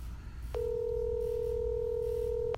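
A telephone tone sounds while calling to leave a voicemail: one steady, even electronic tone held for about two seconds. It starts and stops abruptly over a low background hum.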